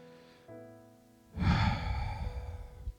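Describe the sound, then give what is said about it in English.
Deep exhale during a guided breathing exercise: a long, breathy rush of air that swells and slowly trails off, following a stretch of soft, sustained tones. “Exhale.”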